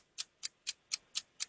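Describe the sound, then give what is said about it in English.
A game show clock ticks six times at a steady, quick pace, crisp high clicks heard alone. “All right, start the clock.”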